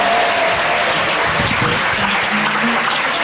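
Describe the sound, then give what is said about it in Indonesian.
An audience of Islamic boarding-school students applauds at a religious talk: thick, continuous clapping at a loud, even level, with faint tonal traces beneath the crowd noise. “Tepuk tangannya buat Faisal.”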